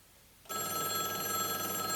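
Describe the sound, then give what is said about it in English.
A payphone rings after about half a second of quiet. It gives a steady, continuous electronic ring with bright layered tones that hold without a break until the end. “The phone was ringing.”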